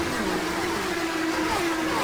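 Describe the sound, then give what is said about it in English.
IndyCar race cars accelerate away at the green-flag start of the 79th Indianapolis 500, a loud, continuous engine roar with a steady whining tone held throughout. “Here they come. The green flag is out, and the 79th Indianapolis 500 is underway.”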